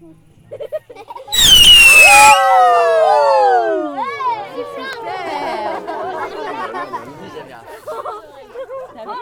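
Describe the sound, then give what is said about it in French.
A loud firework burst launches into a cascade of whistling tones that sweep downward, followed by crackling and lively chatter from a crowd of people. “Toi qui commandes le feu d'artifice pour la machine. Prends ton temps.”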